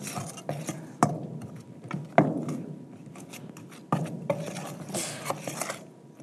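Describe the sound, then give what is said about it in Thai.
Ladle scraping and pressing in a bowl while mixing herbal toothpaste ingredients such as calcium carbonate, alum and stevia, continuous gritty scraping broken by a few louder metallic clanks. “ใช้ทัพพีผสม กดให้เข้ากัน”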